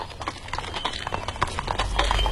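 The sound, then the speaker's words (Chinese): Hooves of a horse-drawn carriage clip-clop in a steady, rapid rhythm, many hoofbeats over a low rumbling undertone. “刘瑾见陈廷敬的马车渐渐远了”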